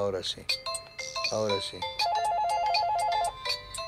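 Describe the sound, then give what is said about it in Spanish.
An electronic telephone ring tone sounds as an incoming call arrives, a rapid warbling tone repeating steadily for over a second. It follows voices talking at the start and stays loud and clear. “A ver, tengo llamado telefónico, vamos a contestar.”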